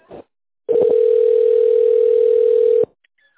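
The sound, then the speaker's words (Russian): A steady telephone tone sounds while a call is transferred to an operator. It is a single unbroken tone lasting about two seconds and holding the same pitch throughout, with a brief faint sound just before it. “Вызов переводится на оператора.”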